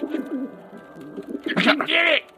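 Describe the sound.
Pigeon cooing: low, wavering coos that grow into a louder, brighter burst of calls toward the end before stopping abruptly.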